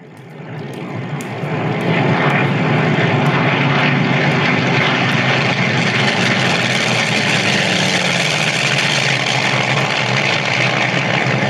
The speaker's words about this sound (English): Sounds like those Navy boys are getting an early start on us today. They sound close. I don't remember him flying this close before.